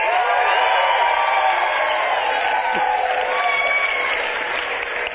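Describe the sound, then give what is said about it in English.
An audience applauds and cheers in a loud, dense wash of clapping with whoops mixed in, holding steady before easing slightly at the end. “If you are a Pepsi person, make some noise.”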